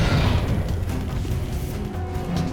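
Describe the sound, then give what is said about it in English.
A flamethrower roars as it engulfs a lair in flame, a loud, continuous, rumbling whoosh heavy in low tones that holds steady for a couple of seconds. “Griffin points a flamethrower at Roland, engulfing the lair in flame.”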